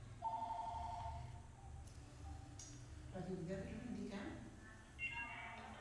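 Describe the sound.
A telephone rings with an incoming call: one brief trilling ring near the start, followed by a person talking over faint background noise.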